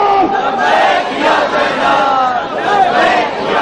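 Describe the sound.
Women in a crowd chant in unison, answering a religious slogan with "Labbaik ya Zainab". Massed voices sustain a loud, continuous call, dipping briefly before surging again.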